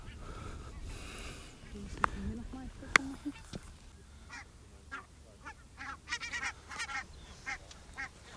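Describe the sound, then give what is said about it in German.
A flock of migrating birds calling overhead: many goose-like honks. The calls are sparse at first and then crowd into a busy, overlapping chorus in the second half, over a steady rumbling background. “der Vogelzug ist in vollem Gange und man kann es hören.”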